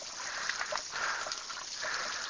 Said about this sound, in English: I believe they got the hot on, that's the problem. No? Let's get some cold water going.